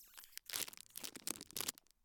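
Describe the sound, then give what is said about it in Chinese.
Crinkly tearing as the wrapping on a cake is ripped open, several short, faint bursts of crackling plastic that fade out at the end. “你拆下蛋糕包装，然后喂我。”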